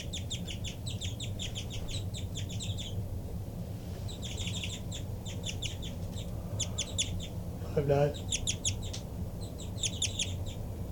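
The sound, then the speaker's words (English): Rapid bird flight calls, one bird answering another: many quick bursts of high, thin chirps repeated in tight series over a constant low rumble, with a short lower call midway. “5-9 there getting really rapid flight calls in response to 3-3. Sounds like a real good call match.”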